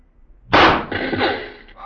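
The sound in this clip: A single rifle shot at a target, fired by a Mounted Police sergeant, gives one sharp, loud crack that rings on in a long, fading tail.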